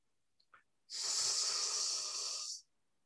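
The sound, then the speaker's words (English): A single long, soft breath out with a faint voiced sound in it, made during a guided meditation. The breathy hiss holds steady for under two seconds after two tiny, brief sounds, then stops cleanly. No one speaks. “Softly sounding as you breathe out, with awareness of making the sound aloud.”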